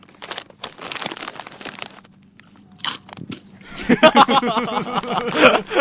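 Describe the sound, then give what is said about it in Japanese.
A bag of barbecue-flavour crunchy scones crinkles as it is torn open, then loud, rapid crunching and chewing of the snack fills the second half with dense, irregular bursts. “スナック菓子を食べた音声がありますので、ちょっとお聞きください。開けてるとこですね。”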